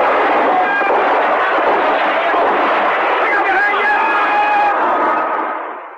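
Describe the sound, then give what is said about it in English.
Heavy gunfire in a staged firefight, aimed at helicopters while giving cover fire, forms a dense, loud, continuous roar rather than distinct single shots. It keeps its level throughout, then fades out at the end. “They're opening up on the choppers. While giving some cover fire.”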